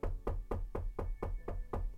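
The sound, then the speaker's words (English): Knocking on the door of a grandmother's house in a spoken fairy tale: eight quick, evenly spaced thuds with a resonant low body. No talk. “he reached the house and knocked on the door.”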